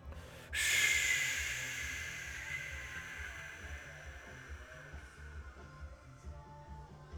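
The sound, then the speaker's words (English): A long, breathy exhalation during a core and mobility exercise starts abruptly and loud, then slowly tapers off over several seconds, with a faint low hum underneath. “If you were to take a long breath out with me,”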